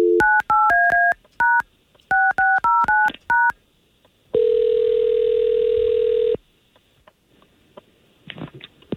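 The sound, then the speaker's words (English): Touch-tone telephone dialing, heard as two quick runs of sharp keypad beeps at shifting pitches. A long, steady call tone of about two seconds follows, then faint clicks and rustling. “We're going to try to call him right now, okay?”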